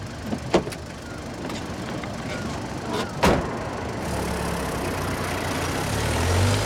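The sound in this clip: A car engine rumbles as the car pulls away from a bus station, its low drone building steadily toward the end over a steady noisy background, with a couple of sharp clicks or knocks early on.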